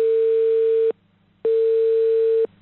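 Telephone ringback tone as a call is placed late at night: two long, steady, loud tones separated by a short silent pause.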